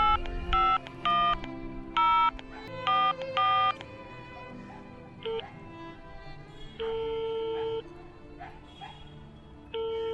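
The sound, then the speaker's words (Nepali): A phone number is dialed with a quick series of touch-tone keypad beeps, then longer steady ringing tones sound on the line. “Emergency छ भन्छ त फेरि, एकचोटि call गरेरै हेर्नु पऱ्यो।”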